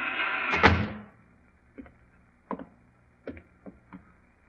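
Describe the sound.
Knocking on a door: a few sharp, brief raps in uneven small groups follow a louder opening burst of noise, then quiet returns between the knocks.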